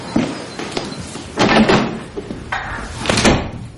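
Office doors being closed, heard as a few separate wooden bangs and knocks with quieter shuffling between them.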